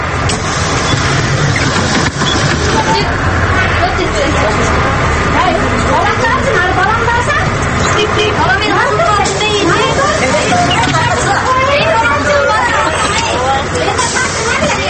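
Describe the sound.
Crowded city bus in Osh, with a continuous engine rumble beneath a dense, steady babble of many passengers' voices talking at once throughout.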